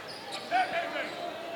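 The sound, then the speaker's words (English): Basketball dribbling during a game: a few bounces stand out briefly over steady crowd noise. “And the dribble.”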